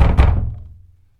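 Knocking on a door comes as a couple of heavy, low thuds in quick succession, their dull boom fading out over about a second.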